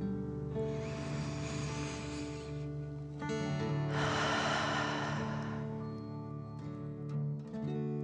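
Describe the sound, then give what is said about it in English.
Deep 'dragon breath' breathing during a guided exercise: two long, airy breath sounds, an inhale and an exhale, each lasting about two seconds, rise over steady, sustained ambient music tones. “And let's take another deep dragon breath. Fill up your chest and belly. In and out.”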